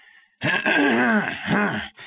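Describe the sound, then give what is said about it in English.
A man clears his throat in a bunkhouse to get everyone's attention: a gravelly, voiced rumble that swells loudly, dips briefly, then pushes out a second rasping surge before a short pause and a softer follow-up. “Turner cleared his throat in the universal means to get everyone's attention.”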